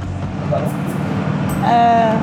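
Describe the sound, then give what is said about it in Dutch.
A bus engine rumbles low and steady as the vehicle sets off and heads onto a motorway, a short stretch of continuous road drone that grows slightly louder near the end. “Wanneer we ingegespt en wel zijn, komt de bus in beweging en zijn we onderweg. Als we de snelweg opdraaien”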